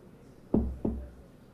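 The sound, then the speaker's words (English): Two knocks on an office door, quick and close together, soft and dull, against a quiet background. “Later, he knocks at the door to Steve's office.”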